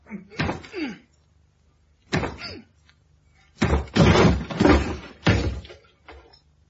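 A locked door is forced with several heavy thuds and slams spaced by pauses. The later blows come louder and closer together as the door is broken open.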